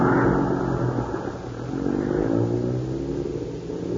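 A bus engine drones with a steady, loud, low rumble for about four seconds, without voices.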